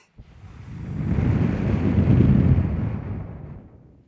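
Breath blown into a cassette recorder's built-in condenser microphone makes a loud roaring rush of wind noise that swells, holds and then fades over about four seconds.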